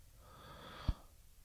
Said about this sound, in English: Strong deep breath, and again, same process. Four count in, holding it, releasing, letting go.